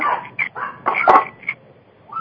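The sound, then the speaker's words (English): Dogs barking in a few short bursts, sharp yaps spaced unevenly with brief gaps between them, the loudest near the middle and a final one at the end. “My dogs are going to start barking now.”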